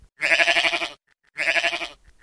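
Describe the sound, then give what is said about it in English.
Sheep bleating while grazing grass under a solar installation: two long, wavering, nasal bleats separated by a brief pause, loud and alone. “A herd of sheep wander the site, eating grass under the solar installation”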